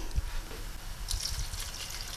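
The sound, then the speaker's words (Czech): A little water is poured onto red cabbage in a pot, a faint hissing trickle that starts about halfway through and keeps going to the end. “Červené zelí. Teď bych ho podlila troškou vody.”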